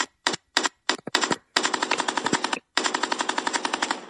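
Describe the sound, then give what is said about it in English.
Gunfire sound effect standing in for a 21-gun salute: a few loud single shots open, then two long bursts of rapid-fire cracks follow in quick succession, with no voices. “Let me give you a 21 gun salute.”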